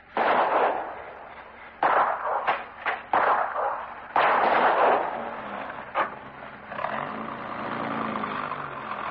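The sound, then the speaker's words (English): Several sharp gunshots crack out during a chase after a taxi driver, irregularly spaced loud bangs with short ringing tails. A lower rumbling noise lingers between them. “I warn you! I'll shoot!”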